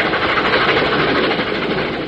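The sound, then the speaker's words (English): A freight train passes with a continuous heavy rumble of engine and rolling rail noise, loud and steady throughout with no voices. “Freight trains do carry complete automobiles, but they do more than that.”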